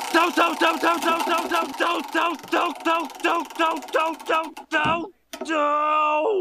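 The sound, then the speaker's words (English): Spinning prize wheel effect: a rapid, even run of bright repeated tonal blips, then a short burst and a brief gap before a sustained ringing tone closes it. “we're going to need that good old wheel of random. Let's give it a spin to see which season we're in.”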